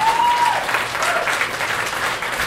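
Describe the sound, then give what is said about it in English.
Audience applause at a live comedy show at the Red Clay Comedy Festival: a steady wash of clapping at an even, moderate level through the whole moment. “Big round of applause”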